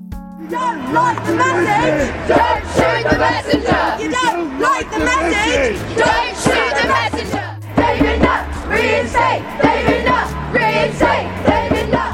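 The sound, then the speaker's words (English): Protesters outside Parliament in 2009, demonstrating against the dismissal of a psychiatrist and policy advisor, form a loud crowd that yells and chants in overlapping bursts, with shouting voices rising and falling throughout and a brief dip midway. “That's the sound of a protest taking place outside Parliament in 2009. They were protesting the dismissal of psychiatrist and policy advisor David Nutt.”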